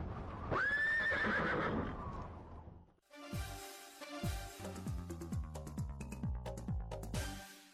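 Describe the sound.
A horse whinnies loudly in a long wavering cry of about two seconds, then a run of many short, repeated tones that each slide downward in pitch.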